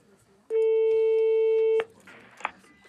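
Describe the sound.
A telephone ringback tone after a number is dialled: one steady ring about a second long, followed by faint rustling noise.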